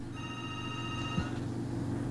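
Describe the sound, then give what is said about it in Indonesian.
A telephone rings once with a steady electronic multi-tone trill lasting about a second, over a constant low hum. “Baik, saya angkat telepon.”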